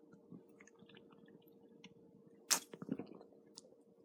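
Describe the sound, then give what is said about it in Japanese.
Beer being sipped: a short, sharp slurp followed by a few soft, wet mouth clicks. It is quiet over a low, steady hum. “ちょっともう一口飲みますね、ビール。”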